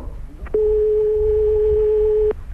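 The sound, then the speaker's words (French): A telephone ringing tone heard while a call waits to be put through to the police or gendarmerie. One steady, mid-pitched tone lasts just under two seconds, alone without talk. “Écoutez, vous entendez sonner, là?”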